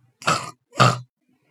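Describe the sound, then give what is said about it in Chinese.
A voice imitates a pig, giving two short, rough, nasal grunts separated by a brief pause. “不行，呃，你不能像我这样呃哼哼，你又不是一头猪。”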